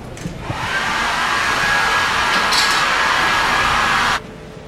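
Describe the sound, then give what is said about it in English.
A hair dryer blows out hair with a loud, steady rushing whir and a faint thin motor whine. It starts quickly, holds for about three and a half seconds, then cuts off abruptly. “I gotta blow my hair out. Okay. Which is really not dry because it's so fucking hot in here.”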